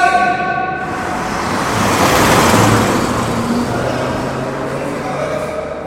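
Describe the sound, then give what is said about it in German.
Car speeding past on a road and nearly running someone over: a broad, rushing roar that swells to a peak midway, then eases back into loud, steady traffic noise. “Sie hatten Glück, dass ich sie noch zur Seite reißen konnte. Die Verrückte hätte sie über den Haufen gefahren.”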